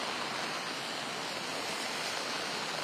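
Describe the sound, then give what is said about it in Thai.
Heavy rain pours onto a flooded street at the Lat Phrao five-way intersection, a dense, unbroken hiss that stays steady and loud throughout. “จากภาพที่คุณผู้ชมเห็นนะครับว่าตอนนี้ก็มีฝนตกลงมา”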